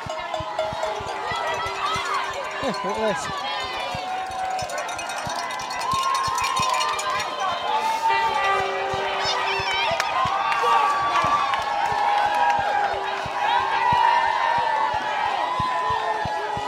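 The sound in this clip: A crowd cheers runners in a road race as they step onto Tower Bridge, a constant loud swell of shouts and applause with a man speaking briefly over it.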